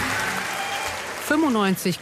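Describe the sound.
Delegates cheer and applaud at an SPD party conference after a vote result. The steady crowd applause carries on throughout, and a voice speaks over it toward the end.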